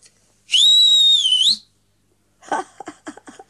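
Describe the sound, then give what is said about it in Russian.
A woman whistles loudly to call someone over: one shrill, piercing high note held steady for about a second, bending slightly upward just before it cuts off. “Мадам, не следует так свистеть.”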